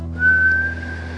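A whistle is blown in one clear, high, steady tone. It starts after a brief pause and holds to the end over a low continuous drone.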